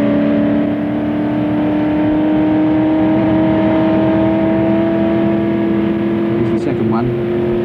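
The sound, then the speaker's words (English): Racing car accelerating to about 180 mph on a fast stretch of circuit before a series of very fast right-hand curves; a loud, steady engine drone whose tone climbs gradually throughout. “Accelerating, and now we're on the third fastest part of the circuit, before the corner they call Indianapolis. Up to about 180 miles an hour here”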